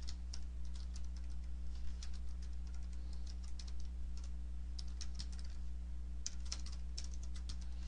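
Code being typed on a computer keyboard: a fast, continuous stream of light clicks over a steady low hum, with no one speaking.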